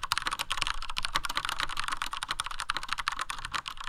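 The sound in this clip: Rapid typing on a mechanical keyboard with smooth, slightly mushy switches: many crisp keystrokes in a dense, steady stream, loud and without talk.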